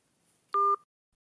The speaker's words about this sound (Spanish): se cortó la llamada